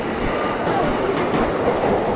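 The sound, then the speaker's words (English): A train passes on the tracks at a large station, a steady loud rumble of wagons with a faint high wheel squeal running through it, with no talk. “That's our train going in the other direction.”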